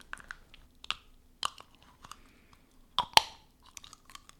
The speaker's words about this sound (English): I'm gonna take my aligners off.